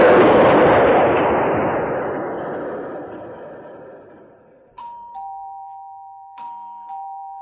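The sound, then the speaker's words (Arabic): Doorbell of a home rings twice in the morning, each a bright two-tone ding-dong with a sustained lower note. The rings follow a loud, slowly fading rumbling noise and stand alone without voices. “ايه ده؟ ده جرس الباب اللي بيضرب.”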